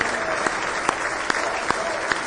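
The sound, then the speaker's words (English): A church audience clapping hands in praise: dense, sustained clapping with regular rhythmic accents falling on a steady beat of roughly two per second. “a big hand clap of praise tonight.”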